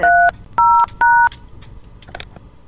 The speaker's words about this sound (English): I'm gonna dial a number, and that's for you.